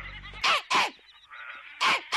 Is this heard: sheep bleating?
yes